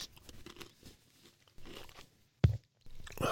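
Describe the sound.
A Williams Christ pear sweet is bitten with one sharp, crunchy crack, surrounded by faint chewing and mouth noises.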